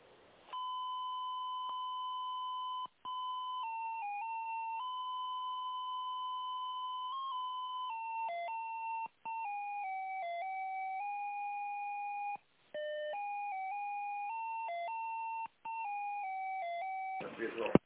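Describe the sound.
Electronic tones on a phone line while a call is being transferred: loud, steady beeping tones that step up and down in pitch like a simple melody, running almost continuously with a few short breaks.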